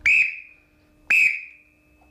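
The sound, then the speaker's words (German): Two sharp blasts on a small black trill whistle, once used to call sprints for rowers: high, shrill piercing tones with a fluttering onset, each about a quarter second and tapering off, evenly spaced, with a third starting at the end. “Ja, scharfe Trillerpfeife. Gibt's die noch? Ja, die gibt's noch. Das war tatsächlich so eine schwarze kleine Trillerpfeife.”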